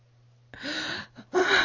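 A woman gasping, two long breathy intakes of air with a brief catch between them, the second one louder and sharper, with no talk.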